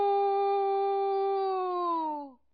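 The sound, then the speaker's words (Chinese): A person pinching their nose imitates a rooster crowing with one long, steady, strongly harmonic call that sags in pitch near the end and then cuts off, alone in silence. “门客当中又有一个惯偷出身的人在关前捏着鼻子学起了鸡叫。”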